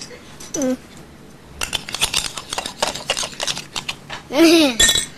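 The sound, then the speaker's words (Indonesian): A knife stirring food in a pan or bowl gives many quick, irregular metallic clinks and scrapes, with brief vocal sounds at the start and near the end. “Aku mau adukin sedikit. Aduk kok pakai pisau?”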